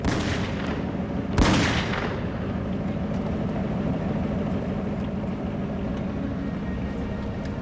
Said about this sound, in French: Ce dernier s'affaissa et un des 2 hommes lui tira encore 2 autres balles.